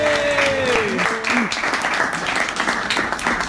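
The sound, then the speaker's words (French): Applause and cheers from an audience greeting a comedian on stage: a few high whoops over brisk clapping at the start, then an even patter of hands that holds steady to the end. “est-ce qu'on peut faire du bruit pour Flora, s'il vous plaît, qui se lance à l'eau.”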